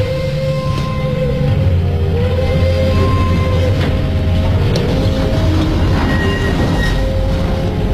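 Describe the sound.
A departing train sounds loud and heavy, a continuous rumbling clatter of wagons with thin squealing wheel tones rising above it.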